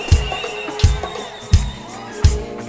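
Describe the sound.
A crowd of worshippers at a church gathering shouts with joy, a mixed roar of voices punctuated by four regular low thumps spaced roughly evenly throughout.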